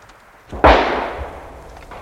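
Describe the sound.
A single rifle gunshot during a wartime patrol in a forest: one sharp, loud crack after near quiet, with a long tail fading over about a second.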